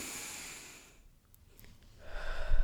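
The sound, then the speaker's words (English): One big, deep breath: soft breathy rushing fades to a brief quiet gap, then a fuller, noisier intake swells toward the end. “So let's take one big deep breath just to close this out.”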